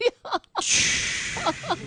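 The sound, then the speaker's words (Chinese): A man's voice imitates snoring: after a few short vocal sounds comes a long, loud, rasping breath-like noise that holds steady for over a second. “我发现啊，本台男主播特别擅长模仿打呼噜”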